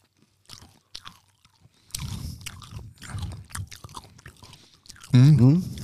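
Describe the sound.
Someone chewing hard aronia berries, with crisp crunching bites and wet chewing under a voice, ending with a loud vocal exclamation.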